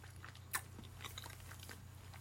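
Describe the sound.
Biting and chewing food while eating, a sharp bite near the start followed by soft, irregular crunchy chews, faint throughout over a low steady hum.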